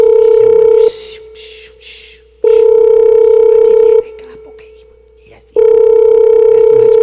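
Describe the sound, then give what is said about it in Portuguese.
Telephone ringback tone on an outgoing call: a steady mid-pitched tone sounds in about three long bursts separated by pauses, with a voice talking during the gaps. “Deixa eu ligar aqui pra ele aqui, vamos lá.”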